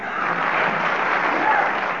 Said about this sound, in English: I'm going to ask the audience to give you a little bit of applause to encourage you.